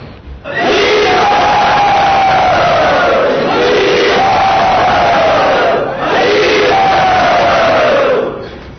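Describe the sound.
A crowd at a temple gathering cheers loudly to welcome a guest speaker, a sustained roar of many voices that surges in repeated waves, each swelling and then easing.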